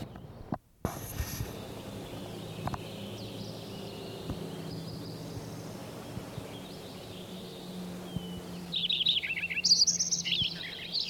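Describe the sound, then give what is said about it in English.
A Lincoln's sparrow song: a bright, rapid run of high warbling and trilled notes rises out of a steady low background hiss near the end, with only faint scattered chirps before it. “Lincoln sparrow number 7.”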